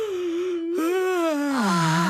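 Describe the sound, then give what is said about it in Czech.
Voiced yawning during a children's pre-sleep exercise: a long, steady moaning tone breaks off briefly, then resumes as a second drawn-out tone that slides lower toward the end. “Tak, holky a kluci, chce se vám spát? A zíváte.”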